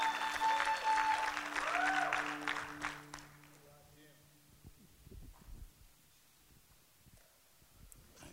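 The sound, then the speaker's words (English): An audience applauds at a church gathering to welcome a speaker. The applause is loud and mixed with sustained instrumental tones, then drops away after about three seconds to a faint background. “Can you give him a great big hand of appreciation?”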